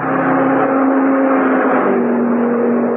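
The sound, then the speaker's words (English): Cars roar along a test track during road testing, a loud, unbroken engine drone with a steady pitch and no breaks. “They were still testing cars, but the people watching the test winced as the cars thundered by, just as if they expected the autos to fall apart any second.”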